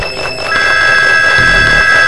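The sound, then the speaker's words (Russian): An electric bell ringing as a steady, high, unbroken tone that starts shortly in and holds to the end over a noisy background. “Я слышу звонок, это Ленин.”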